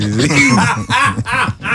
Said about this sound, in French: Racler ma gorge, okay. En tout cas, racler bien vos gorges.